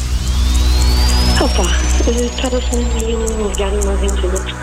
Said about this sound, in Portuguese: Estava a ligar uma ventoinha portátil. Uma ventoinha portátil? Como assim? Sim, uma ventoinha daquelas de mão. Carregando um botão e a ventoinha trabalha.